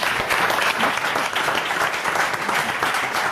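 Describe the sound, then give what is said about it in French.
Audience applause rises for a guest's wrong but game answer, a dense, steady wash of many hands clapping that stays loud and even throughout, with no talk over it. “On applaudit l'effort.”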